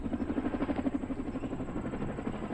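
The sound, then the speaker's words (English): Faint military helicopter lifting an American soldier: a steady, rapid rotor chop that pulses evenly over a low engine drone throughout. “An American soldier is lifted by helicopter.”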